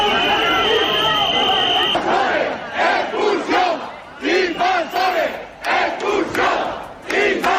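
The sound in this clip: An angry crowd of residents shouts outside a hotel's doors in Ceuta. Loud chanted bursts come in a steady rhythm, with brief dips between the shouts.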